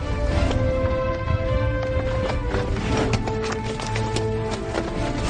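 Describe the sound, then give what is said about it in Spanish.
Horses are ridden over rough Texas terrain, their hooves making irregular clopping beats over a continuous, steady background sound. “pero cabalgar en el terreno de Texas es más difícil de lo que esperaban.”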